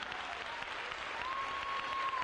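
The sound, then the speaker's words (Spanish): Applause from a church audience during a worship service: dense, steady clapping that holds at an even, loud level for the whole stretch. “Dale un aplauso al Rey.”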